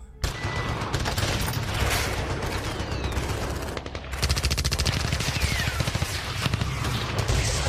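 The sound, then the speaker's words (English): Rapid bursts of gunfire rattle almost without pause, loud and dense, dipping briefly in the middle before the shooting picks up again just as hard. “Bullets? Really?”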